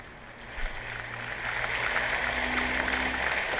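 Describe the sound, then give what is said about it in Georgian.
Applause with a standing ovation from members of Ukraine's parliament, the Rada, a dense crackling clatter of many hands that swells after the start and holds steady and loud to the end. “ტაშითა და ფეხზე ადგომით შეხვდნენ რადის წარმომადგენლები.”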